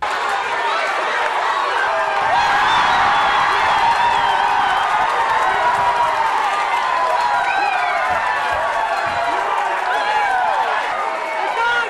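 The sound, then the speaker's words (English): A crowd screams, shouts and cheers on runners at a race finish. The roar is loud and continuous, with many voices yelling throughout. “they just lifted the roof off the place with all screaming and shouting and just encouraging the runners as the race was going on”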